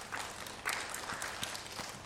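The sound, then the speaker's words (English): Applause for students at a chapel gathering: faint, steady clapping that runs through the whole short clip with no clear breaks. “Let's give those students a round of applause.”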